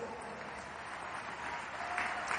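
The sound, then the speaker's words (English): Audience clapping fills the whole stretch as an even, dense patter of many hands, fairly faint and steady with a slight swell near the end. “If you're not jealous, that's a good place to clap.”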